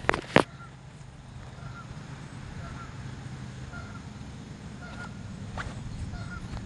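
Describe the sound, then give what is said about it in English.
Canada geese honking as they land on water, several faint, short nasal honks spaced out over a low, steady background rumble. “A water landing from the Canadian geese back there.”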